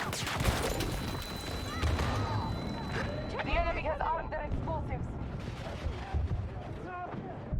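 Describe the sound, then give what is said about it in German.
A tank fires its cannon at a wall in a video game, heavy booming blasts mixed with rattling gunfire and continuous battle noise, with a voice talking over the din. “Oh, Panzer, der schießt gleich die Wand weg.”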